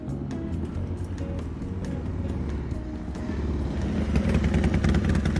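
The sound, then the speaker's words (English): Sport motorcycle engine: a steady, low, throbbing rumble that grows slightly louder toward the end as the bike arrives and is parked. “Alright, let me just park my super cool sport bike out front here.”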